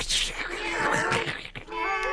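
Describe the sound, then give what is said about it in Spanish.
Many cats meow at once in a dense, overlapping chorus of wailing, moaning cries that stays fairly loud, with a brief dip just before the end. “creo que o que está a pasar é que unha multitude de gatos acaba de entrar no noso estudo.”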